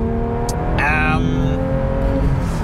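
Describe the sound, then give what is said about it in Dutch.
A 992-generation Porsche 911 GT3 with Touring Package drives along with a steady, loud low engine drone and a faint constant whine, while a person talks briefly over it. “Welkom aan boord van de Porsche 911 GT3 met Touring Package. Het Touring pakket. Tankwaarschuwing negeren. Want we rijden nog een klein stukje door”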